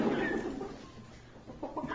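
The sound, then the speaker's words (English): Hens clucking while being given water, a steady run of soft, low clucks with a few sharper, brighter calls toward the end. “Hey, girls. Salt and pepper. Hey, girls. Very stylish chickens. Yeah, let me give them their water.”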